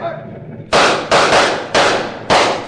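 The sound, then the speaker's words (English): Gunfire aimed at a fleeing wagon in a dramatized scene: four loud, sharp shots spaced at uneven intervals, each striking hard and then decaying briefly before the next. “You other men, fire at that wagon.”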